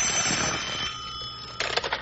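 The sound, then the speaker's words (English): A telephone rings insistently, a bright, shrill, steady tone that breaks into rapid pulsing bursts near the end. “Phone's ringing.”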